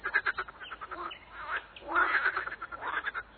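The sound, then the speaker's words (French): Toads croaking in a pond near a house, raspy pulsing calls repeated in a steady, overlapping chorus that swells slightly toward the middle. “près de la maison, des crapauds coassent.”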